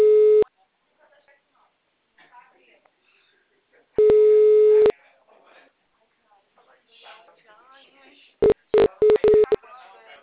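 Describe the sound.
A telephone busy signal sounds in loud tone bursts: a short one, then a longer one, and finally a quick run of several brief beeps. Quieter voice-like sounds fill the gaps between the tones.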